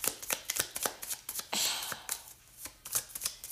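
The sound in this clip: A deck of cards is shuffled by hand: many quick, crisp slaps and riffles in an uneven rhythm, with one longer riffling burst midway, fairly faint and free of talk.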